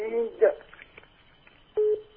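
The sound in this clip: Telephone disconnect tone on a radio call-in line after the caller drops: steady mid-pitched beeps start near the end, following a short stretch of voice.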